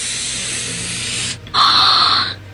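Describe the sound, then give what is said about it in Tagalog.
A hissing "psst" sound from inside a cabinet: a steady breathy hiss, a short break, then a louder, sharper hiss lasting about a second. “Sino ina? Kaga nagapanitsit ka?”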